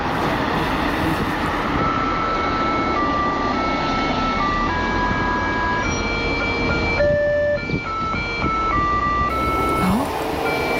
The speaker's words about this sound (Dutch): Ja, het is een speciale toeter. Stoplichten.